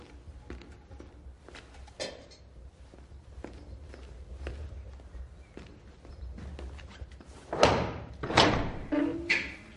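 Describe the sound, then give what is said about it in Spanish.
A jailer's footsteps walk through the stone corridors of a castle dungeon in a period drama. The steps are evenly paced and fairly faint, and a few heavier, louder thumps and knocks come near the end. “Un carcelero camina por los pasillos de los calabozos de un castillo.”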